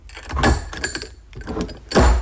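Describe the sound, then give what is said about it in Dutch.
Opening and closing of a herb jar holding dried hemp tops: a few scraping, rattling bursts of the lid, strongest at the start and end, with quieter clicks in between. “Het openen en sluiten van mijn kruidenpotje.”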